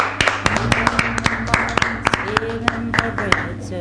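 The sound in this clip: Applause on a radio show: sharp individual hand claps in a quick, uneven rhythm, many distinct claps rather than a dense roar, over a background of voices.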